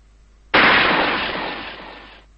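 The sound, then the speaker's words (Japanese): A gunshot rings out through a guesthouse: one sharp, loud crack after near-silence, followed by a long, smoothly fading echo tail that cuts off before the end, with no voices. “ペンション中に響き渡る銃声がした。”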